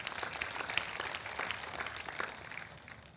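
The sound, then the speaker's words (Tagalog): Applause from a church audience during a worship service, a dense, steady wash of many hands clapping that carries through the whole clip without pause. “Palakpakan nga po natin yung Panginoon.”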